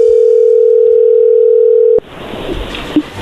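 A telephone dial tone sounds while a call is being placed: one steady, clean, mid-pitched tone holds for about two seconds, then cuts off abruptly, leaving soft line hiss.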